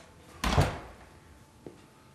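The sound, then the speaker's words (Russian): A door swings shut with one loud, short thump, then a faint, sharp click about a second later as it settles. “Закройте дверь!”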